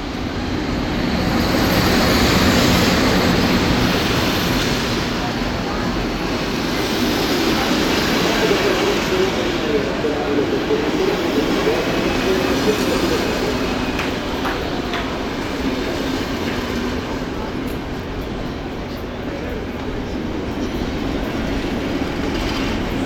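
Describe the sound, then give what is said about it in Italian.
A local train from Pistoia pulls into a station at platform 4, west yard, with a loud, continuous rumble of rolling stock and a clickety-clack of wheels on rails that holds steady and eases slightly near the end. “Locale proveniente da Pistoia in arrivo sul binario 4, piazzale ovest.”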